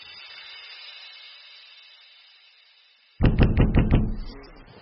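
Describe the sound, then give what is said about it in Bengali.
Someone knocks and pushes on a door in a sudden burst of several loud, rapid thumps. Before it, a faint, steady tonal hum fades out. “ঘুম ভাঙল দরজা ধাক্কার আওয়াজে।”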